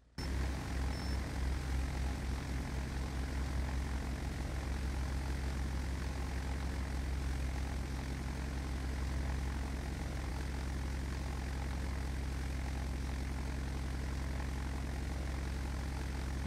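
A light propeller aircraft taking off from a runway, with a steady, low engine drone that holds evenly throughout at a fairly faint level, with no voices.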